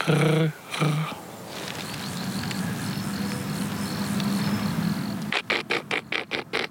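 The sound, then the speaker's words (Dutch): A field grasshopper stridulates with a soft, steady, rasping buzz that keeps going for several seconds. A person talks just before it and again just after. “Ik denk dat dat een veldsprinkhaan was. Het is meer dat melodieuze wat je hier hoort uit dit strijkje.”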